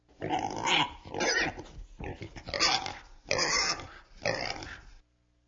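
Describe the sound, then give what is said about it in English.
Five raspy pig oinks and squeals in a steady rhythm, each lasting under a second and separated by short gaps, loud and heard alone. “Pigs oink.”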